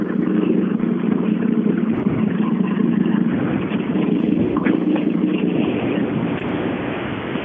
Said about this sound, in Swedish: De kom väldigt tätt här just nu, alltså extremt tätt. Och båda var vita båda var Evo.